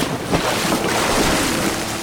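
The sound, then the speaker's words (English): A boat capsizing in water: loud, steady rushing of water and wind that continues through the whole moment with no voices. “The boat's going over!”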